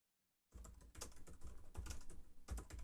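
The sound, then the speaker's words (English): Typing on a computer keyboard: after a brief silence, a quick, continuous run of many clicking keystrokes, fairly faint and uneven in rhythm, with no voices. “Can you hear that typing?”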